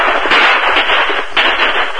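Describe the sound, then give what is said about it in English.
A revolver fired repeatedly, giving a few sharp, punchy reports with a muffled, narrow lo-fi tone over a constant noisy background. “He fired repeatedly”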